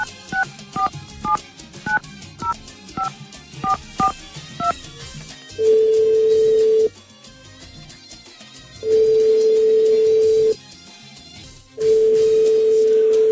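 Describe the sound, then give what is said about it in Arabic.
Telephone keypad beeps in a quick run, followed by three long, steady ringing tones separated by pauses, with the call going unanswered and no voices. “أنه ما حد يجاوب على التليفون”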